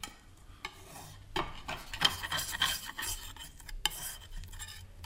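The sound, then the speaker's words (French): A palette knife scrapes on a glass plate while mixing a lilac-violet paint paste with medium. The rasping and rubbing is faint and irregular, with a few sharper scrapes. “Voilà, vous avez vu, cette préparation se fait sur une plaque de verre à l'aide d'un couteau.”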